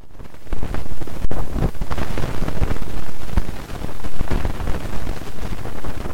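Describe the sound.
Satellite particle data from the solar wind, played as sound during calm conditions, gives a steady, loud rushing hiss like wind noise, with a brief dropout early on and slow swells throughout.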